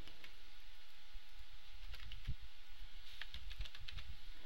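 Keys clatter on a computer keyboard as code is typed, a steady stream of quick, uneven clicks at moderate loudness with no talk.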